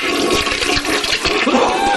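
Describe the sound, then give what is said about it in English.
A toilet flushes with a loud, steady rush of churning water that fills the whole two seconds without a break. “Oh, are they well, flushing?”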